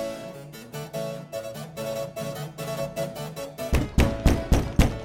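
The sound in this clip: Heavy pounding on a door bursts in over ongoing music. Near the end, a quick run of loud, hard thuds breaks through.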